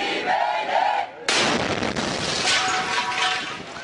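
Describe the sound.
An explosion strikes a meeting of young activists at a Kurdish community center near the Syrian border. Group voices are cut off by a sudden loud blast, followed by sustained roaring noise and commotion.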